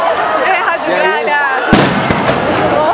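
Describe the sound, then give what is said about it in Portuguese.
A single sharp explosive bang from bombs and gunshots fired to disperse a protest crowd breaks through loud, continuous talking and crowd noise. “Agora eles conseguiram dispersar mesmo. Soltaram muitas bombas, muitos tiros.”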